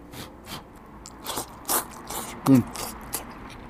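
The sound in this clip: Someone bites and chews meat dipped in a spicy red broth, making several short crunchy bites and soft mouth sounds with quiet pauses between them.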